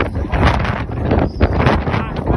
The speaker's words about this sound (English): It's windy.